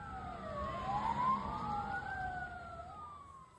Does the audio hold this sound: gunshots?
no